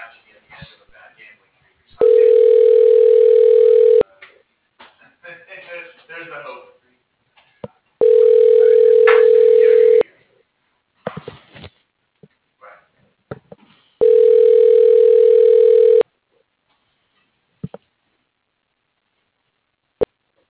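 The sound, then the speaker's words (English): Telephone ringback tones while an office call is transferred to voicemail: three loud, steady low-pitched tones of about two seconds each, with muffled sounds and a few sharp clicks in the gaps between them. “Would you like me to transfer you to his voicemail? Sure. Just a moment.”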